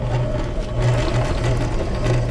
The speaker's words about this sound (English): We sent in CBC's Jason Peters to help him overcome his fear of sewing machines